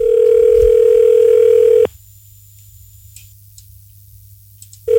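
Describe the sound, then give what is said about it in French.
A telephone dial tone heard while a number is redialed: a loud, steady, even-pitched tone that cuts off abruptly, leaves a few seconds of near silence with faint ticks, then starts again. “Il a été plutôt rapide à recomposer le numéro de téléphone là”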